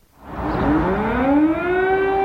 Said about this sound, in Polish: 3 lata temu, moment, kiedy w Kijowie pierwszy raz zawyły syreny alarmowe.